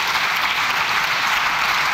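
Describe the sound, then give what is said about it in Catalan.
The Socialist benches in the Spanish Congress chamber give an ovation as the Housing minister finishes her speech. The applause is steady and dense, a continuous wash of clapping heard on its own. “Just és el moment en què acaba la intervenció la ministra d'Habitatge a l'hemicicle del Congrés amb aquest aplaudiment, amb aquesta ovació per part de tota la bancada socialista”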